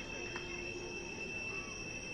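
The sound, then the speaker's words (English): Train wheels screech as a train rolls past a baseball stadium on a Friday night, a steady, thin, high squeal held over a continuous low rumble. “Train screeching on by on this Friday night.”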